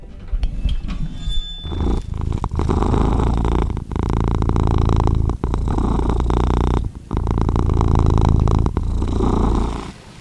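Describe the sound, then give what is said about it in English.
A domestic cat purring while held in a lap: a loud, steady, low rumbling purr in long stretches, broken by a few short pauses, with a couple of faint higher squeaks at the start. “That is the sound of my little feline friend Quincy here, who has arrived at the decision that he likes me to hold him in my lap when I'm recording the podcast.”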